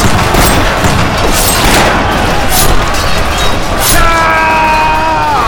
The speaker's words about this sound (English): Davy Crockett, his arm wounded, was killing Mexican troops as fast as he could load rifle and pistol